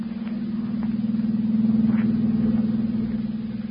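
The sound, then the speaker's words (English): A car engine drones as the driver presses the gas, a steady low hum with a fast pulsing throb that swells slightly in loudness and then eases. “Larry presses down firmly on the gas, and the rest of the passengers remain silent for the time being.”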